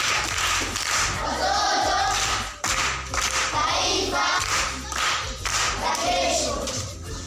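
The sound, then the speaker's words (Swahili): Applause from a group of children at a primary school quiz: loud, dense, continuous clapping that keeps going for the whole stretch, with a brief dip partway through. “Makofi kwa mjomba.”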